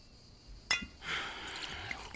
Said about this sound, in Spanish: ¿Quieres que la suelte? Vale. Jamie. Sí, vale. Ya la suelto.